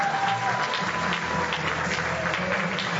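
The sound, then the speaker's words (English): Audience applause greets a branding and customer-experience expert as he is introduced for a keynote. Dense, even clapping continues at a steady, fairly loud level throughout. “We don't have a time to stand around and clap”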